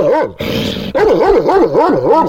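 A dog chained up at night barks, yelps and growls in a loud, rapid burst of wavering, pitch-swooping cries, with no speech alongside.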